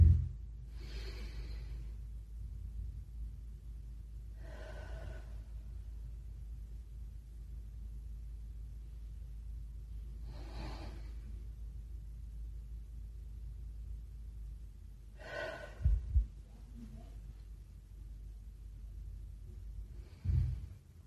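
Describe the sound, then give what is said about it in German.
Slow, deep breathing in and out during a guided relaxation exercise. Several faint, soft breaths are spaced a few seconds apart over a steady low rumble, with no talking. “Und du kannst gerne auch mal einfach eine Hand auf dein Herz legen, die andere auf deinen Bauch und 3 tiefe Atemzüge machen. Mach das mal mit mir.”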